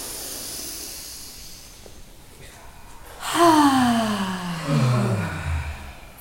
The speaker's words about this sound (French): Et trois respirations abdominales profondes, bruyantes. Inspirez.